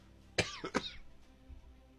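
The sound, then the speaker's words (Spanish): Dry cough: two short, harsh bursts in quick succession, the first sharper than the second, fairly faint and alone with no talk. “Tos seca, ¿qué pasa con la tos seca?”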